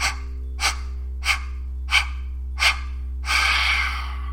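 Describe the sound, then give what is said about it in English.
Five short, fast, forceful exhales from a breathing exercise, evenly spaced and sharp, followed by a longer, sustained breath, all over a steady low hum. “Breathe in fully. And take 5 deep exhales, short and fast.”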